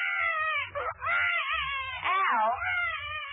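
A woman's loud, wavering wailing cry, mistaken for a baby crying, swooping up and down in pitch over a few drawn-out bursts, with a low rumble underneath.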